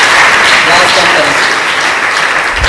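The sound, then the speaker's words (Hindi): Audience applause at a Christian prayer gathering: dense, steady clapping fills the whole clip at a loud, even level, with no separate claps standing out. “यीशु मसीह के लिए जरा जोरदार तालियां हो जाएगी”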